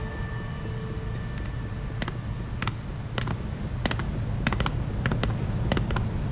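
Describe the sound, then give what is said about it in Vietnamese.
A door being opened, heard as a string of faint creaks and short mechanical clicks that come in uneven bursts and grow busier toward the end, with no voices. “Lâu như vậy mới ra mở cửa.”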